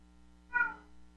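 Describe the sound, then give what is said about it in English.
A single cat meow: one short, clear, tonal cry that swells and fades within about a third of a second, heard alone over a steady low hum. “Even my cat cannot believe what has occurred.”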